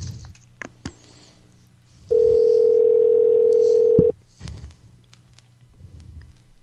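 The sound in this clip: A single long, steady ringback tone sounds for about two seconds on an outgoing telephone call, loud and even, with faint scattered clicks and rustling before and after it.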